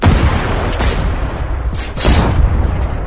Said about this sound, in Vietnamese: Tô Bạch dùng báng súng đỡ, đồng thời hắn cũng bóp cò súng.